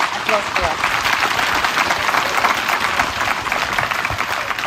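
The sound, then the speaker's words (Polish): Dense, steady applause fills the room for a translator and a Palestinian writer at a literature festival. The clapping is loud and sustained, and the broad, even wash of hands holds level for the whole stretch. “bardzo proszę o brawa dla tłumaczki Katarzyny Janusik i Adani Szibli.”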